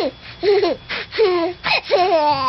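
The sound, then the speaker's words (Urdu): A baby only a few weeks old cries in several short, loud, wavering wails, each with a bending pitch, separated by brief gaps. “مگر چند ہفتوں کے بچوں کے لیے یہ انفنٹ کرائز ٹرانسلیٹر بڑے کام کی چیز ہے, اور ماں باپ کو فوراً پتہ چل جاتا ہے کہ منے میاں رو کر کیا منوانا چاہتے ہیں.”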